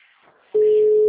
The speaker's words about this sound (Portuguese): Agora tá dando que o número dele não existe.